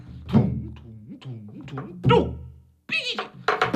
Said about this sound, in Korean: 한밤중에 살금살금 너는야 도둑고양이 야옹